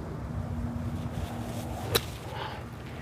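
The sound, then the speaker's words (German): A golf club strikes a golf ball in a trick shot from a lie near a tree, a single sharp crack standing out once against a steady low outdoor background. “Wo ist denn jetzt Ihr Ball? Ja, der liegt leider ein bisschen zu weit rechts, da vorne so vor ja. dem Baum. Also ich muss jetzt gleich doch einen kleinen Kunstschlag machen.”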